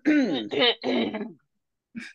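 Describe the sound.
A person clears their throat in a few rasping, voiced bursts run closely together, then gives one short final catch after a brief pause; moderately quiet.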